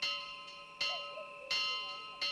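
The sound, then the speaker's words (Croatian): An alarm bell is struck frantically to call for help, giving four loud metallic clangs at a quick, even pace, each ringing on with a bright, sustained hum. “Mahnito udaranje u alarmno zvono za pomaganje noćnog stražara.”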